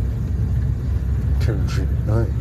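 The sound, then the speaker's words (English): Steady low engine and road rumble fills the interior of a moving car, a constant drone under people talking. “Currently driving.”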